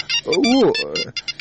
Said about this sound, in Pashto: زنګ دې درته زویه.